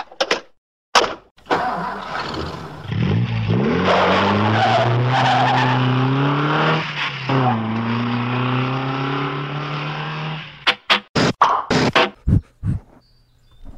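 A car drives with its tires skidding and squealing in one long sustained screech while the engine pitch climbs and sways. A few short, sharp bursts follow at the end.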